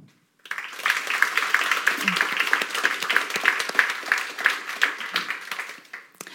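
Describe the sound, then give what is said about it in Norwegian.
Audience applause at the opening of a literature festival in Trondheim, breaking in abruptly after a brief silence and carrying on as warm, steady clapping from many hands for several seconds. “Da gjenstår det bare å gi en varm applaus til kveldens hovedpersoner.”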